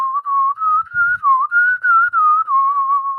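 A person whistles a tune from a Western film, a clear wavering melody of sustained notes joined by small pitch glides, heard alone without talk.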